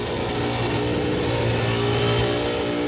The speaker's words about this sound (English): He's got it on the rev limiter here, bouncing.